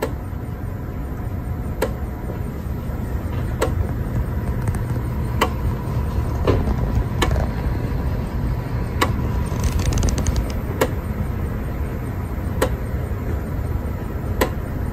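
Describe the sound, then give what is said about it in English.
Floppy drive motor with a floppy disk inside, driven by a Raspberry Pi Pico RP2040, whirs with a steady low hum punctuated by sharp ticks roughly every two seconds, many in a row over a constant drone. “those are index pulses coming from this floppy drive that I am interfacing with. I just got, you know, the first kind of parts going where I enable the motor and I'm setting the direction.”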